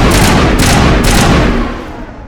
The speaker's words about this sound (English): Ooh, press G to throw a grenade. We missed.